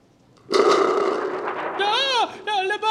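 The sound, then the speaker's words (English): A bomb explosion bursts in loudly and rumbles on for over a second before voices cry out above the fading blast. “Le bomb! Well, that woke the old man up. Dio mio, le bomb! He thinks it's more bombing.”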